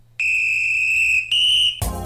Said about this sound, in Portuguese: O apito voltou, junto com ele, Ricardo Paredes.